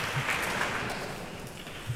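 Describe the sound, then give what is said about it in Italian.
Concert audience applauding a cellist who has returned for another encore bow: a continuous, even patter of many hands clapping at moderate loudness, with a few low thumps and no voices. “rientra ancora una volta con il violoncello a ricevere gli applausi del pubblico”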